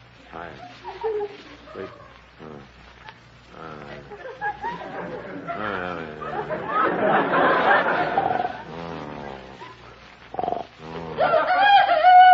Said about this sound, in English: What's that? Help! Run! It's another Pearl Harbor! Quiet. It's just a chicken crowing. Crowing? It's 3 o'clock in the morning. They're not supposed to crow until about 7.